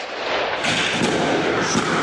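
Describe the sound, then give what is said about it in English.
Police gunfire aimed at high windows of a block of flats during a night raid in Saint-Denis, heard as a dense, continuous loud crackling roar at a steady level, with no separate shots standing out. “Police equipped with powerful torches seem to be firing their weapons at high windows on a block of flats.”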